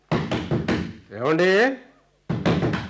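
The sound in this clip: Knocking on a door: a quick run of firm raps, then a brief voice, then another burst of knocks.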